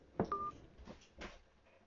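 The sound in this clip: Telephone dialing tones sound as someone places a call: a brief, faint electronic beep near the start, followed by a few soft, muffled bursts of noise.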